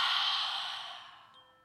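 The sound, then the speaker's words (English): A deep exhale during a breathing exercise, a soft breathy hiss that starts at its fullest and gradually fades over about a second and a half. It is quiet and heard alone. “Three deep breaths to reset ourselves. Let's inhale, exhale,”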